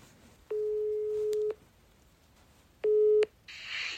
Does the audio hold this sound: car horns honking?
no

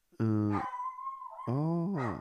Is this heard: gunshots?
no

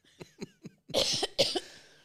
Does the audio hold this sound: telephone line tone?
no

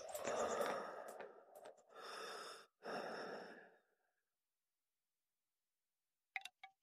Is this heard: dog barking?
no

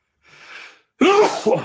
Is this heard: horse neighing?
no

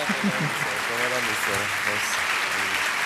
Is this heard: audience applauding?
yes

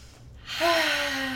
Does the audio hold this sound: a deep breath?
yes

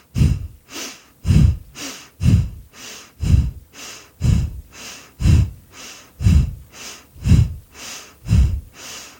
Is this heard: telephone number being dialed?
no

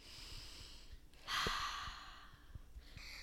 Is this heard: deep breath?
yes

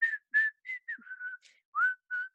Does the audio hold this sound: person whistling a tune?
yes

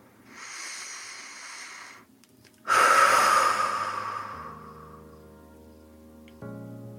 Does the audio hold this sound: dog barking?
no

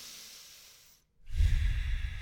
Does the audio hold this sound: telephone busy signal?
no

